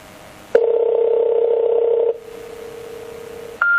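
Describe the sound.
An electronic telephone keypad tone as button 1 is pressed during an automated NTT call: a steady beep holds for about a second and a half, a softer tone lingers, then a higher beep sounds at the end.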